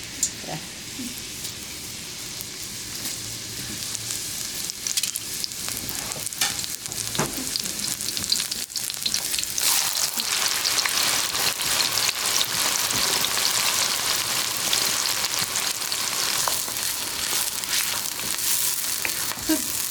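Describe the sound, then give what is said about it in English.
Onion sizzling in hot oil as a cooking test of the oil's temperature, a dense, steady crackle and hiss that holds loud and even for the whole stretch with no voices. “So if you don't have cumin, you can check with onion, and that's how you know that it's good temperature. See that sound?”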